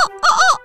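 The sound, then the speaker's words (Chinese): A voice imitates a big rooster crowing in a children's story: a short, bright, wavering call with a brief break before it swells again. “每次它看到大公鸡拉长脖子啼叫，”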